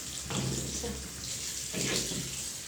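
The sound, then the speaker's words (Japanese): Lukewarm water runs and splashes as a bottom is washed: a steady, fairly soft rushing wash that swells into two stronger splashing surges. “程よくぬるま湯でお尻洗っていくんですけど”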